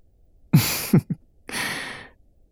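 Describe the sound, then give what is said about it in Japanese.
Soft breathing of a sleeping person: two short breaths, a brief catch, then a longer, airy exhale. The breaths are faint and heard alone in quiet. “愛らしい寝息が聞こえてくるよ。”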